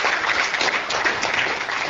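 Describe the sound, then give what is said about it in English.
Crowd applause at a morning chamber breakfast meeting, a continuous, dense clatter of many people clapping at an even level throughout, with no talk over it. “let's give Brandon and Annette a round of applause again for a great breakfast, as always”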